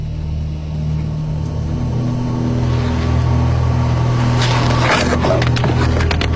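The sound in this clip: A vehicle drives out, its engine hum steady at first and then swelling louder and rougher through the second half, with a broad rushing noise riding over the low rumble.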